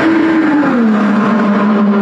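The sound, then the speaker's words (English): The engine of a 2028 IndyCar race car testing on an oval track drones loudly and continuously, its pitch easing slightly lower over the two seconds, with no talk. “Fans seeing and hearing IndyCar driver Alexander Rossi testing the 2028 IndyCar on the IMS Oval.”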